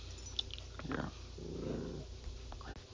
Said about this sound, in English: You'll hear my little dog in the background. She's really getting animated.